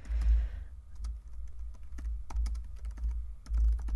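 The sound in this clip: A laptop keyboard clatters with many quick, light key clicks at an uneven typing pace over a low, steady hum.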